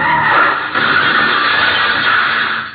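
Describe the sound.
Car tires skid with a loud, sustained screech as the car, going slightly over the speed limit, suddenly turns a corner sharply. The harsh noise holds steady for about three seconds, with a brief dip early on.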